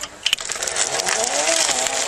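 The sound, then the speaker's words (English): A battery-powered electric bicycle motor gives a steady, bright whirring hiss that holds at an even level throughout. “It may look like any other bike, but the clue is in the sound. What you can hear is a battery-powered motor that takes away all the effort.”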